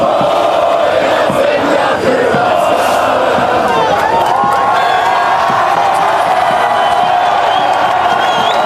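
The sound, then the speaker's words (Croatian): Football fans sing together as they welcome their team back home: a loud, sustained mass of crowd voices with tonal chanting and cheering running through the whole stretch. “Navijači su jedva dočekali svoje nogometne idole. Pri slijetanju pala je i zajednička pjesma.”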